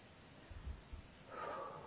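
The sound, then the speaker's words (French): A faint deep breath: soft low rushes of air, then a longer, breathier inhale toward the end. “Alors, je propose de prendre une grande respiration”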